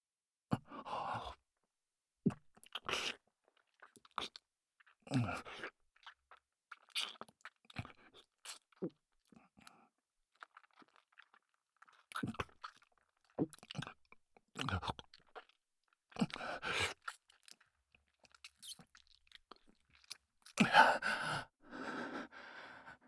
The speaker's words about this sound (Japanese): ディープキスも初めてだから、その下手だったらごめんね。